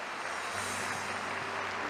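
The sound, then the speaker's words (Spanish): A church audience applauding: a dense, continuous patter of many hands clapping holds at an even, moderate level throughout, with no voices. “Aplaudimos tu palabra, Padre.”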